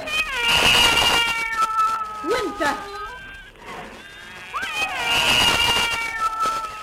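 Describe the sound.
A cat meows several times in high, wavering cries, loudest at the start and again near the end, with softer cries in between.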